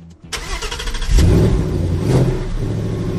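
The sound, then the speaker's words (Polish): A Ford Mustang Bullitt's 5-litre, 460-horsepower V8 cranks and fires, then roars into two strong revs before settling into a loud, rumbling idle. “Jest niesamowity, wystarczy zasiąść za kierownicą i włączyć silnik.”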